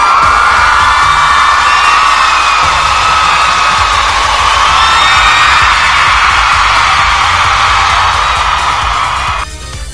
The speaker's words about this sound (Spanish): Es más, y porra, ovación, ¿cómo de que no?